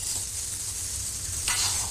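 Food sizzling as it fries in a pan during home cooking, a steady bright hiss running throughout, swelling into a louder surge of sizzle near the end as the food is stirred.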